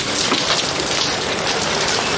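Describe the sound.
Heavy May rain falls as a loud, dense, unbroken patter and hiss that stays constant throughout, with no voices.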